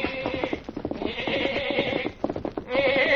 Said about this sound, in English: Little boy is trying to mount his pony, holding a black lamb in his arms.